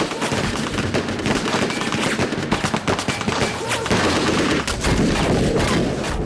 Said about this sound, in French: Des mitrailleuses criblent le premier wagon de balles perforantes.